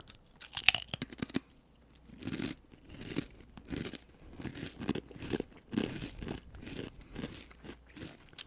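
Loud crunching and chewing of Trader Joe's ghost pepper potato chips, with many sharp, brittle crunches in an uneven rhythm of repeated bites, heard alone without talk.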